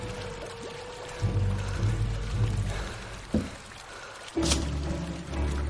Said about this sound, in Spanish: Por el boquete del suelo en la sala de las cajas de seguridad comienza a entrar agua.